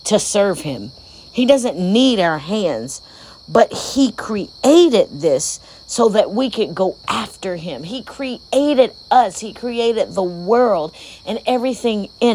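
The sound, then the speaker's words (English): Crickets chirp outside at night as a constant, high, faint trill underneath a voice that talks almost continuously. “As I record this podcast, I hear the crickets in the background.”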